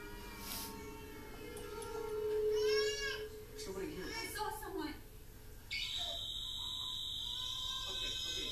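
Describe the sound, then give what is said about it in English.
A shrill electronic alarm blares inside a house in a video game, cutting in abruptly partway through as a sustained high tone after a stretch of voices reacting. “Okay, so everyone goes deaf from the alarm. I like it, but that's a good way to assert dominance in a house.”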